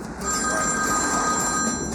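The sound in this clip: A telephone bell rings for an incoming call, a loud, steady, continuous ring that holds for the whole two seconds with no pauses.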